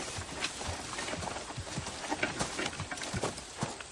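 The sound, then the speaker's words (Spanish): Hooves clip-clop as a muleteer's pack animals pass by, a faint, steady run of many uneven hoofbeats on the ground, heard alone without talk. “Un arriero pasa cerca de ellos.”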